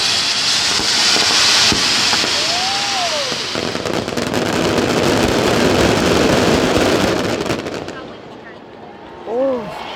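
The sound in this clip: Dense crackling and booming from a large festival fireworks display with firecrackers, fired with nearly 3,000 kilos of gunpowder in Elche; a loud, continuous barrage of rapid bangs and crackles with brief whistling tones, easing off near the end.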